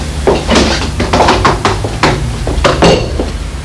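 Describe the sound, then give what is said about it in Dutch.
A box with a stiff, hard-to-open lock is shut, giving a quick series of sharp knocks and clattering thuds over a low steady hum. “Goed, de doos dus. Even dicht maken.”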